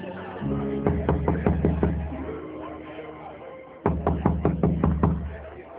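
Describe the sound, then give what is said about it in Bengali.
Knocking on a door comes in two bursts of several sharp raps, separated by a pause, over a steady low tonal hum. “কে কে কে দরজার শব্দ করে?”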